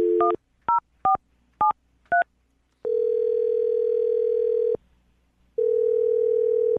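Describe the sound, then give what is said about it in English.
Telephone keypad tones as a number is dialed: five short two-pitched beeps in quick succession, then a long steady tone, a brief silence, and the steady tone again. “I'll dial this one up right now, okay?”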